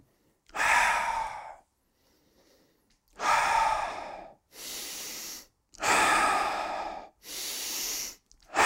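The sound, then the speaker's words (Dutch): Deep breathing during a guided breathing exercise: a steady series of loud, airy breaths in and out. Each lasts about a second and is separated by short pauses, with no talk. “Lekker vol en lekker diep. Daar gaan we. Adem door.”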